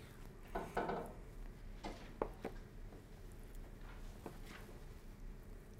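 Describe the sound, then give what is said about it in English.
Soft knife taps on a cutting board as a block of tofu is cut into chunks, a few faint irregular knocks against quiet background. “And we're simply cutting it into chunks. And when you marinate the tofu, it absorbs pretty quickly.”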